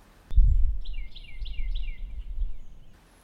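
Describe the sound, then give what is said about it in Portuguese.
A small robin sings outside a window, a short run of a few quick, high chirps over a low, rumbling background that fades after a couple of seconds. “Na realidade, era apenas um pequeno pintarroxo cantando do lado de fora de sua janela”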